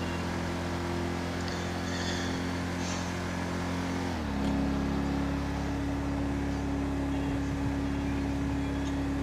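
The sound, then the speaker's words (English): Engine drone of a state patrol car driven in a video game: a steady low hum that steps slightly lower partway through, then holds an even tone with no talk. “I'm driving a state patrol vehicle right now, which really want these hazard lights to go off.”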